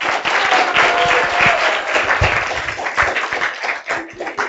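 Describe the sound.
A Baltimore audience greets two authors with a warm round of applause: brisk, dense clapping from a crowd, steady throughout with a few sharper individual claps standing out.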